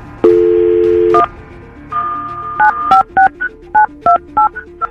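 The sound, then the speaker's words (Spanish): Telephone dial tone followed by a number being dialed on a phone line: a steady tone gives way to several quick, evenly spaced DTMF keypad beeps, loud and clear with no talk. “vamos a marcarle a tu marido.”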